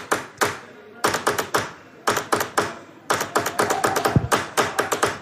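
Zapateta hand percussion demonstration: crisp slaps and taps struck in rapid rhythmic bursts, separated by short gaps, with a denser and busier run of strikes near the end.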